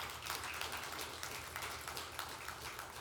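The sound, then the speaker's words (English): A church audience applauds, clapping for volunteers who served a community meal. The clapping is faint, dense and steady throughout. “I love that we celebrate it and clap for that.”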